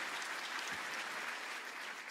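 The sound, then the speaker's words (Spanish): An audience at a church service applauds with steady, continuous clapping, soft and even throughout the short stretch. “¿Cuántos dicen amén y aplauden por eso?”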